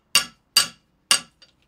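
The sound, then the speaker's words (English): Hammer blows flatten the head of a hand-forged 3-inch rose head nail set in an anvil hole: three sharp, evenly spaced metallic strikes, each ringing briefly, then a faint light tap. “So then you through the hole in the anvil, hammer it down a bit.”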